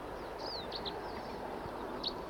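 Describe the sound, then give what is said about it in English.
A wild bird sings and calls with a few thin, high chirps and one short falling whistle. The faint calls sit over a steady, broad hiss. “Here's another bird who's also singing and calling. Wild bird song.”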